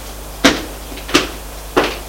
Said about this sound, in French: Voilà votre chambre. J'ouvre la porte.